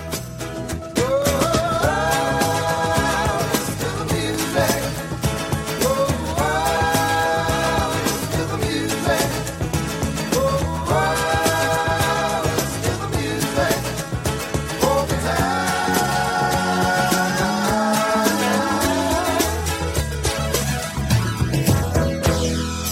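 A live rock band, including drums, plays a cover song heard from a video recording: continuous, dense full-band music at an even, loud level throughout, with melodic lines rising above a steady driving rhythm.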